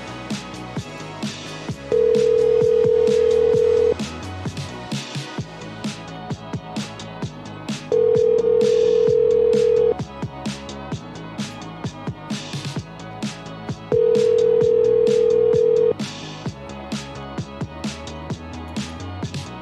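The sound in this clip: Three long, steady telephone tones of about two seconds each sound at even intervals during a call attempt to a house, rising clearly above a continuous busy background.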